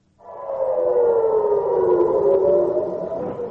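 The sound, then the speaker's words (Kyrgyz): An air raid siren wails in northern Israel near the Lebanese border during air strikes, a loud, sustained tone with a gently sliding pitch that holds through the whole clip, with no voices. “Жекшембинин таңында Израилдин Ливан менен чектешкен түндүк аймактарында ушундай сиренанын жана аба соккуларынын добушу болуп турду.”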